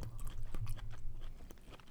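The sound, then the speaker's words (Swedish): Green Halkidiki olives being chewed: quiet, wet mastication with many soft crunchy clicks in an irregular rhythm, with no talking. “jag vet vissa av er ni tycker det är irriterande, det är han äter. Jag äter oliver.”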